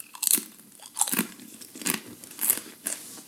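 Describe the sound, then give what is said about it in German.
Crunching and chewing of a tortilla chip, five crisp, brittle crunches spaced at an uneven rhythm, each a short bright snap fading into softer munching, fairly faint and with no talk over them. “er probiert den Tortilla-Chip. Man hört es jetzt vielleicht ganz leicht im Mikro.”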